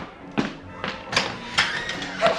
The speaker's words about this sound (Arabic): مين بيخبط علينا الساعة دي؟ وإزاي يخبط بالطريقة الغريبة؟ افتح الباب